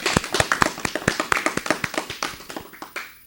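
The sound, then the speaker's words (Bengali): Audience clapping for a child performer after a song at a children's music gathering: many sharp, crisp claps in a brisk, slightly uneven rhythm, thinning out toward the end. “বাহ, অপূর্ব! আমাদের ছোট্ট বন্ধুর জন্য এবারে জোরে একটা করতালি হোক।”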